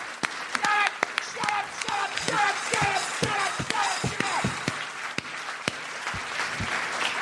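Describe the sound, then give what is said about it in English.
Audience applause for a guest at a live comedy event, heard as scattered sharp claps of varying strength beneath a person talking, irregular rather than a sustained roar. “could you give James a nice round of applause?”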